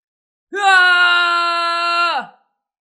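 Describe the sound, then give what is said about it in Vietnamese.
A man screams in pain, trembling with clenched teeth, in a single loud, drawn-out cry that holds a steady pitch for over a second and a half before dropping off sharply into silence. “Trương Tiểu Phàm bỗng thét lên, toàn thân run lẩy bẩy, hàm răng nghiến chặt”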